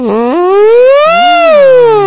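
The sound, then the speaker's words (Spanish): A voice imitates a mosquito as a whining ambulance-like siren: a drawn-out buzzy tone that jumps up early, climbs steadily to a peak, then dips slightly and levels off, with a second lower wavering line joining partway through. “Es como una ambulancia. Es un mosquito ambulancia.”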